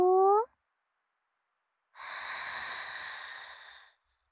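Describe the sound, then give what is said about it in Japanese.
A slow, deep breath is drawn in during a guided breathing exercise, a soft airy rush lasting about two seconds. It comes after a brief voiced sound and a pause of silence. “それじゃあニーニー、息ば吸おうか。大きくゆるって吸よ”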